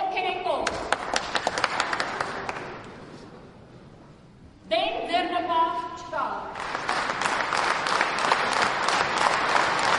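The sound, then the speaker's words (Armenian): Standing ovation at a political party congress: loud, crisp clapping from many hands fades away, a voice speaks briefly in the lull, then the applause surges back strong and sustained to the end. “Կուսակիցները հոտնկայս ծափահարեցին”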